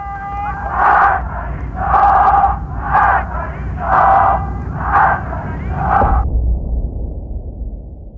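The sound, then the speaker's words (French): Women and men chanting a political slogan in unison at a street protest in Tehran, 1978: six loud, rhythmic shouted bursts about a second apart, then the chant drops away into a low, rumbling crowd noise. “Marbar Shah, c'est-à-dire à mort au Shah, ce slogan crié ou chanté par les femmes aussi bien que par les hommes”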